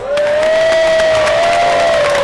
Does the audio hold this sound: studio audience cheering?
yes